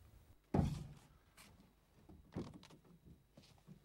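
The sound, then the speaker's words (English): A tool shed door opening in a misty clearing: a dull, soft thump, then a quieter knock a couple of seconds later, both faint over low background noise. “He walks up to the tool shed and goes through the door.”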